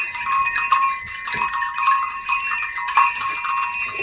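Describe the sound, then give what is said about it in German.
Six small herd bells of different sizes hang on one strap and jingle, giving irregular overlapping rings and clinks at a fairly steady level, bright tones mixed with duller clangs. “das sind wahrscheinlich die Glöckchen von einer kleinen Herde. Mhm. Also, es ist so, dass hier sind insgesamt 1, 2, 3, 4, 5, 6, 6 Glöckchen dran. Man hört das auch.”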